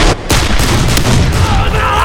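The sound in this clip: Gunfire from dozens of pistols fired at once forms a dense, loud, sustained roar lasting the whole clip, with a few sharper cracks but no clearly separate shots.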